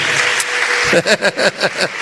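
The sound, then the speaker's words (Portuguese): Applause at a church worship gathering: a crowd clapping together in a steady, rhythmic beat of quick, loud, evenly spaced claps, starting out of a softer wash of noise. “Vamos aplaudir mais.”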